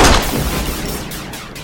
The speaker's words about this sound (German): Ich musste schießen. Sie hätten sich sonst umgebracht. Haben Sie keine Angst. Meine Kugel hat nur Ihre Schulter getroffen.